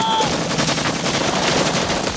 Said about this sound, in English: Bullets tear into Brown's body. Shots pepper the ground and the soldiers get down.